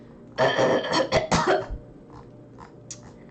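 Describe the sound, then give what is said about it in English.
A harsh burst of coughing as someone clears something lodged in the throat: a few rough, loud hacks in quick succession, followed by quieter throat sounds trailing off. “I think I dislodged something from my throat.”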